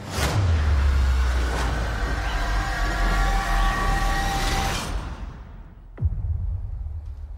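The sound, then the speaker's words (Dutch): Cinematic effect of Loki teleporting via the Tesseract in the trailer for the Loki series. A deep rumble and broad roaring whoosh build and sustain loudly, cut off abruptly, then a single sharp impact follows. “Het geluid kwam uit de trailer voor de Loki-serie die naar Disney Plus komt. We horen Loki die ergens heen teleporteert via de Tesseract waar de Space Stone dan weer in verborgen zit.”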